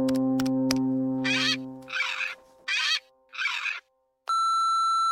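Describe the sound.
Phone tones sound while someone dials a call to a grandmother: a steady low hum with sharp clicks, then four evenly spaced buzzy bursts, a short silence, and a bright sustained electronic tone.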